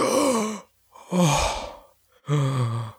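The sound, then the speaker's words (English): Long, deep breaths from a man whose boils and swelling are going down: three drawn-out, voiced sighing breaths with a groaning edge, separated by short pauses, with no speech. “And he takes a long, big breath.”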